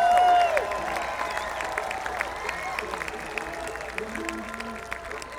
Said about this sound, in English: How about a hand for Jason Carter on our fiddle here?